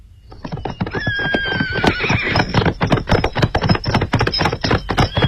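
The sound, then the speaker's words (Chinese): A horse whinnies with a high, wavering cry, then many sharp hoofbeats clatter in a quick, driving gallop as a rider goes off at speed. “骑马绝尘而去”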